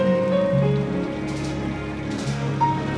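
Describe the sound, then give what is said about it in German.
Heavy rain pours down as a steady, even hiss of drops on a surface, beneath sustained musical tones. “Wach auf, es regnet in Strömen”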